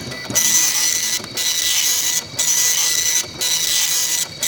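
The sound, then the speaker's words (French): A printer prints a document in loud, rhythmic mechanical passes of whirring and rasping. Each pass lasts about a second and is broken by a brief gap before the next one starts. “Puis je vais l'imprimer aussi, hein, on sait jamais.”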